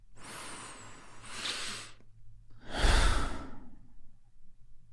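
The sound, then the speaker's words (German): Deep breaths come through clearly: two long, airy breaths with a short pause between them, the second heavier and louder. There is no talking. “Als erstes, wie oft kannst du 2 oder 3 tiefe Atemzüge nehmen?”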